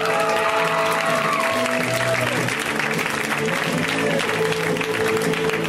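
An audience at a comedy show applauds a comedian who is being brought on stage, a dense, loud and steady burst of clapping that keeps going for the whole stretch.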